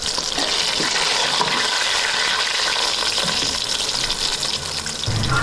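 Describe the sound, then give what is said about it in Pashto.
Onions sizzle and fry in a pan, about to be cooked with steamed mushrooms, giving a loud, continuous crackling hiss. The sizzle holds steady throughout with faint stirring texture and no talk. “اوس پیاز ورته سور کوم”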